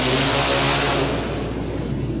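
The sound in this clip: Motorcycle engines race, among them a 1955 Harley-Davidson flathead flat tracker factory bike at a flat track event, a loud, steady, revving roar that eases slightly toward the end.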